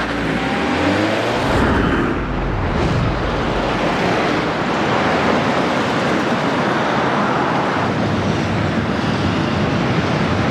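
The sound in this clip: A car driving off: a loud, continuous engine and road roar that stays fairly steady throughout, with a slight surge near the start.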